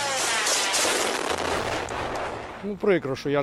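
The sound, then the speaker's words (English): Machine-gun fire aimed at an incoming missile: a loud, dense crackle of rapid shots runs almost continuously, and a brief voice breaks in near the end. “Yes, here with a German short-range Gepard, or here, one missile taken down with a machine gun.”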